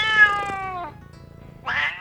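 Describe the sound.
A cat meows twice: first a loud, drawn-out meow that slides down in pitch, then after a short pause a brighter, shorter meow, with no other sounds around.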